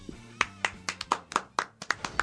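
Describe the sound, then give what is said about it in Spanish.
Hand clapping, roughly ten sharp claps in a steady rhythm at moderate loudness with no talking, a small sparse round rather than a full crowd. “Si quieren pueden aplaudir.”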